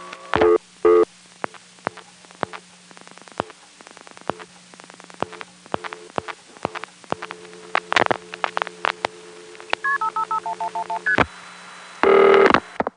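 Touch-tone keypad dialing a long telephone number: a rapid run of short two-note beeps with small clicks between them, ending in a longer burst of tone, all over a low steady hum.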